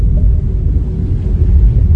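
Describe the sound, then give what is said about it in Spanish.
Deep, continuous rumbling of a storm turning into a cyclone in a cave, a loud low roar that holds steady throughout with no voices. “¿Qué diablos es eso? ¡Saca al equipo enseguida! ¡La tormenta se ha convertido en un ciclón!”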